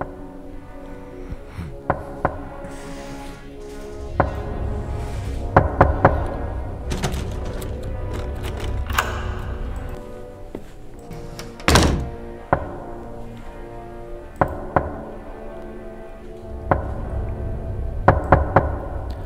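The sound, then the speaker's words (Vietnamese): A bamboo stick knocks on a wooden coffin, giving many hollow, dull thunks in an irregular rhythm, some single and some in quick clusters, with a few sharper, louder blows. “rồi lấy cái gậy tre gõ vào quan tài cồm cộp.”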